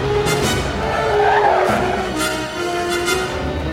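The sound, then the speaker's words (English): Car speeding and skidding through traffic, with a continuous loud engine roar and tire squeal that rise and ease slightly without a break. “He pulls into traffic, cutting off several cars.”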